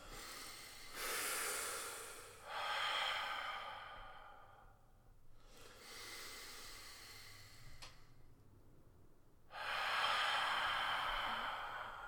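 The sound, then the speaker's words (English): A few deep, slow breaths, each a long airy inhale or exhale, rise and fall as loud breathy surges separated by quieter pauses. “I'll take a deep breath. Deep breaths.”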